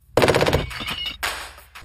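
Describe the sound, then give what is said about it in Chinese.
German MG42 general-purpose machine gun firing: an extremely fast, loud burst of many shots in a tight rattling stream, followed by further harsh, noisy firing with no talk. “这就是德国 MG42 通用机枪，”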